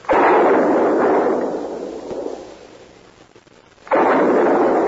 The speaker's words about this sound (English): what in the world is he shooting at now?